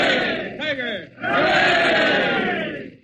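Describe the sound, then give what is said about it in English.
A crowd gives three cheers for the king and queen: many voices shout together in loud unison, then a short lull, then a longer swelling cheer that fades at the end. “So we all rise and get three cheers for their majesties.”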